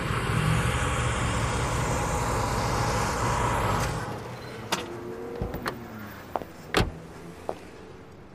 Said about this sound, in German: Aber angeblich hat sich Prince in einer großen Limousine ganz allein zum Jackson Studio fahren lassen.